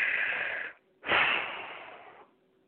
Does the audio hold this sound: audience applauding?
no

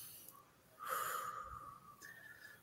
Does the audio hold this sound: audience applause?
no

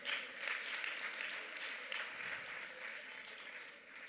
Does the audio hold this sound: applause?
yes

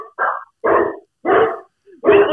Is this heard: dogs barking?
yes

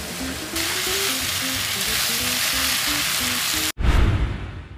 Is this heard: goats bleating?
no

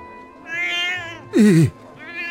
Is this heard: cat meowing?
yes

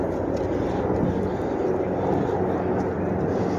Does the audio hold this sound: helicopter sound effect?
yes

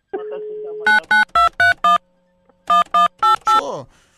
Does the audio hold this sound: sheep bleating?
no

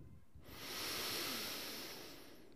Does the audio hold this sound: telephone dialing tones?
no

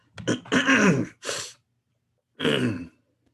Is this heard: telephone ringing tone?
no

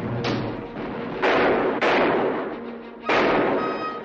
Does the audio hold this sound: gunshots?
yes

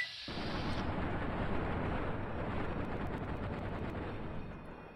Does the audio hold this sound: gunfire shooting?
yes

